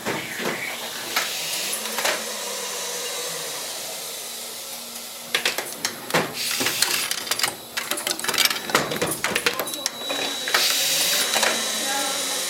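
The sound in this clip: Mechanical clattering and whirring come from a 1987 cassette assembly machine as empty cassette shells slide down and finished cassettes stack out of a magazine. A quieter whir opens, then dense bursts of rapid clicks and ratcheting follow.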